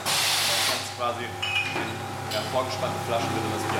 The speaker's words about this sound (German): Und dann hier alles von Hand abgefüllt. Die Flaschen werden vorgespannt.